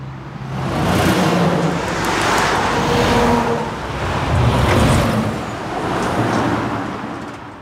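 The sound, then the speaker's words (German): Steady roar of road traffic from the A7 motorway and the busy B446 highway near the village of Lütgenrode by Göttingen, loud and continuous, with a few passing vehicles swelling and fading. “Lütgenrode leidet quasi unter Dauerbeschallung. Einerseits die Autobahn A7, andererseits die vielbefahrene Bundesstraße B446.”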